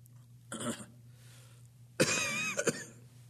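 A cough and a throat clearing from a man reading aloud: two rough bursts, a short one followed by a longer, rasping one, over a low steady hum.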